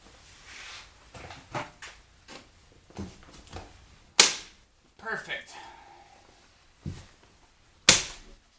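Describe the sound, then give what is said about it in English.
Sharp, loud cracks of a staple gun firing staples, two strong snaps standing out among softer knocks, taps and handling noise. “fan of this staple gun. This is working a lot smoother than I was expecting.”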